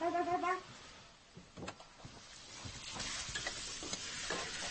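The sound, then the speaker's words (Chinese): Food stir-frying in a pan: a steady, busy sizzle runs throughout, broken by scraping strokes of stirring, with no talk over it. “那行，那我炒菜呢”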